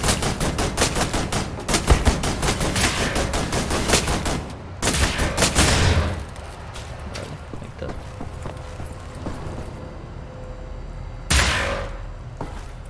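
Gunfire in the video game Wolfenstein: The New Order: rapid automatic bursts rattle densely through the first few seconds, then a couple of louder isolated blasts punctuate a quieter stretch.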